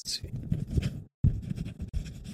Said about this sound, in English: Oh, let me write it down again. Write it down again, please.